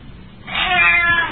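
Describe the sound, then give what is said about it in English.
A house cat gives a single drawn-out meow, loud and clear, rising out of quiet and holding for most of a second, with no voices over it. “What's this? Our cat.”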